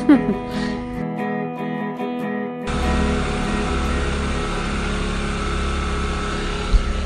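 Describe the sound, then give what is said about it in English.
A generator runs with a steady droning engine hum and dense rumble. It starts abruptly a few seconds in and holds constant, after a quieter stretch of mixed tonal sounds. “That noise, my lovely friends, is my very own generator.”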